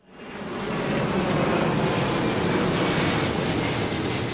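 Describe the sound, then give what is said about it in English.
Airplanes fly low over a leafy residential neighborhood in Memphis that lies in the flight path of Memphis International Airport. A jet roar swells within the first second and then holds as a loud, steady, broad rumble. “That might sound like an airport runway, but it's actually a leafy residential neighborhood in Memphis called Cooper Young, and it's right in the flight path of Memphis International, home of FedEx.”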